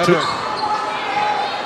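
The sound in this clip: A basketball is dribbled on the court during a girls' high school game, a few dull bounces mixed into steady crowd noise in the gym.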